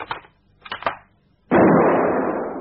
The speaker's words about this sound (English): That's your mother's laundry line. There we are. Two pegs with two shots.